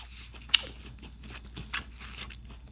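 Crunchy bites into a Vietnamese sandwich: two crisp, sharp crunches stand out, the first louder, with quieter chewing and crackling around them and no talk.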